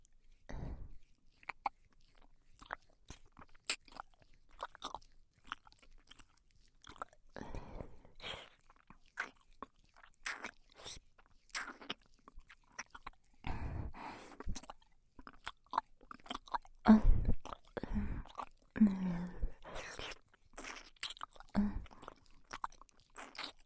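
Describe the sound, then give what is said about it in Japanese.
Soft, wet licking and mouth sounds from ASMR licking along the outer rim of an ear: faint, irregular smacks and clicks, with quiet gaps between them. “次は反対側のお耳を舐めさせていただきます。まずは外の縁から、”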